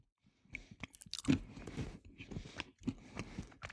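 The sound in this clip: Nuts being chewed, many crisp crunches and wet bites in an uneven rhythm, fairly faint with no talk over them.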